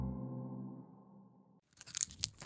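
Crisp crunching of a Brause-UFO sherbet wafer candy being bitten and chewed, a quick run of sharp, dry cracks and crackles filling the last second after a steady tonal hum.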